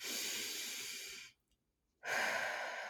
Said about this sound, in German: Also Augen schließen, tief ein.